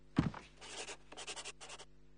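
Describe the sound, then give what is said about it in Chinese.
A pen signs a document: a sharp tap, then a few scratchy writing strokes with short pauses between them, faint and without talk. “请过来签字”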